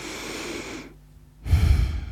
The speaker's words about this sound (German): schließ doch einmal die Augen und atme ganz tief durch.